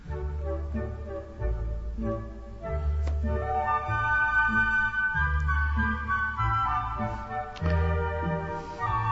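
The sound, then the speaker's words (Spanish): Three flutes play Tchaikovsky's Dance of the Mirlitons from The Nutcracker, a bright melody over a steady beat of low plucked pizzicato strings. “Pizzicato en la cuerda, y ahora las tres flautas.”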